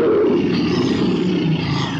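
A tiger roaring near its cage while people try to drive it back in with a whip and chair, one loud, sustained, gravelly roar that fills the whole moment on its own.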